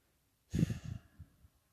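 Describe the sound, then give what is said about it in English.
Gentle breath taken during a guided yoga meditation: one soft, breathy exhale like a quiet sigh, followed by fainter trailing breath sounds, with no talk. “So close your eyes, take a couple of gentle breaths,”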